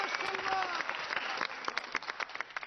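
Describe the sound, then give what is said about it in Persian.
Audience applause at an Iranian variety show, a steady patter of clapping with scattered sharper claps, fairly faint and fading slightly toward the end. “حالا یه دست به افتخار خودتون و همه شهرهای ایران بزنید.”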